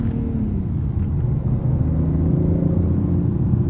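Deep, steady rumble of a car engine running in manual sport mode after a gear is selected, a continuous low drone with no voices over it.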